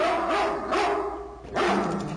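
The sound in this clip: Guard dog barking: a few sharp, mid-pitched barks with short pauses between them, heard alone without any talk.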